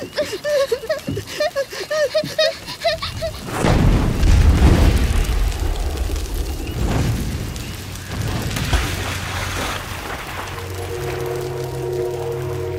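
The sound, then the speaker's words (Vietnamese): A deep, booming explosion erupts from a fire-engulfed boat on a river after a stretch of tonal sound, swelling into a loud low rumble that sustains with rough crackle before settling into a steady hum. “Tiến kéo tay Linh, chưa kịp nhảy xuống sông thì một tiếng nổ vang lên.”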